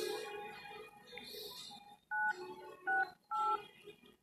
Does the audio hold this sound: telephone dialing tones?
yes

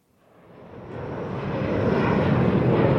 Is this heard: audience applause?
no

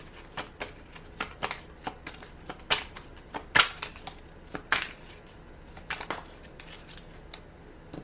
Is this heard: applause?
no

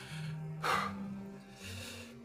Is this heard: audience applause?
no

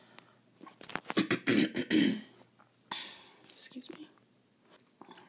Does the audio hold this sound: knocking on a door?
no

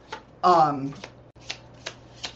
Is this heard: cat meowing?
no

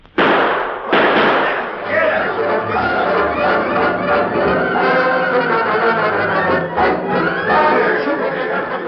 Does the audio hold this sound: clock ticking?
no

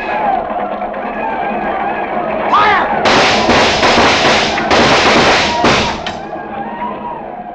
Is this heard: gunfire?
yes

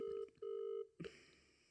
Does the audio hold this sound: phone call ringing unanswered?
yes

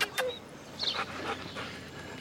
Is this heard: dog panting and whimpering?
yes

